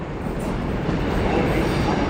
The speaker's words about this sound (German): Ich komme am Bahnhof in Mülheim an.